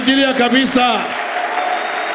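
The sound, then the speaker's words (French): A church audience applauds and cheers after a man's voice, and the hazy wash of clapping continues at a lower, steady level once the voice stops. “Nous allons l'acclamer très fort.”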